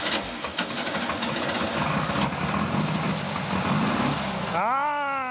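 A 44 hp buggy engine weighing 720 kg runs with a steady, loud, rough rumble that holds throughout with no clear pauses.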